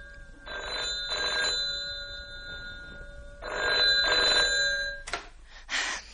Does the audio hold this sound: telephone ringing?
yes

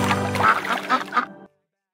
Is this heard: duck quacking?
yes

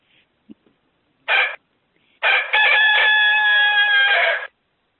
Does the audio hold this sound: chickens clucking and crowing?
yes

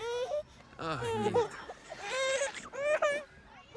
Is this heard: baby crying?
yes

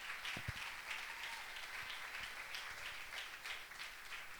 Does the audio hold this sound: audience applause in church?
yes

